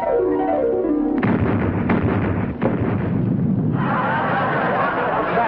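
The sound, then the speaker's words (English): A fuel drum exploding during an attack on a base: loud, continuous roaring rumble broken by several heavy bursts, with a harsh surge of noise near the end. “What's that? Hold on, Sam. I think a fuel drum exploded.”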